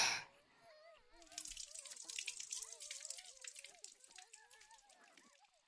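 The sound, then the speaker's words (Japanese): Hot bath water pours over a person's back with a soft, continuous splash and slosh, scattered with small drips and trickles. It is fairly faint and begins after a brief quiet moment. “でもその前に、お背中をお湯で流しますね。”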